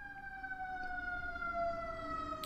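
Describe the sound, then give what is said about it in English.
A faint ambulance siren goes by, its steady wailing tone drifting slightly lower in pitch over a low background rumble. “I'm sorry for that ambulance going by. I don't know if you heard it or not.”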